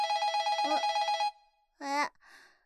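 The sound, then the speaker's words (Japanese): An internal extension call rings on a telephone: one continuous, bright, trilling ring lasting over a second, then a short burst of voice and fainter sound afterward. “内線だ。ちょっと待ってね。”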